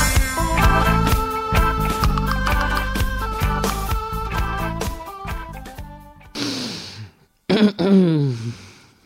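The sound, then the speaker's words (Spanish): A few harsh, noisy coughs from a woman suffering from a flu-like cold. They break in as short loud bursts separated by a brief gap, right after a passage of music with plucked, tonal notes fades out. “esa ha sido la tos de la compañera”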